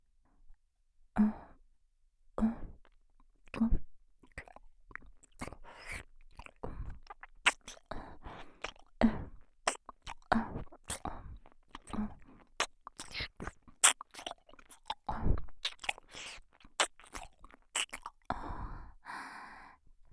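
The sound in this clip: Gentle ASMR nibbling and biting by the ear, many soft wet clicks and crunchy mouth sounds in irregular bursts, broken up by faint breaths and sighs, with no words spoken.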